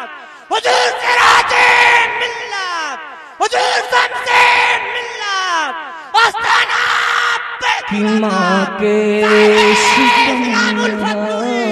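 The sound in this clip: Men chant a religious slogan (naara), a man leading with a crowd answering. Loud shouted voices come in several long, forceful bursts with short breaks between them.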